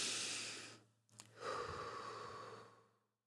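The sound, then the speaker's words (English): A deep breath drawn in and then released: a soft, airy inhale, a brief pause, then a long, slow breathy exhale that fades out, quiet and alone. “Just deep breath in. Release it.”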